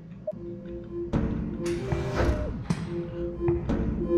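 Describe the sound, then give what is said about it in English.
A code lock is operated in a video game with a few clicks and thumps. The sharp mechanical hits sit over a steady, droning tone. “You are now close enough to use the code lock. North. So you used your code lock.”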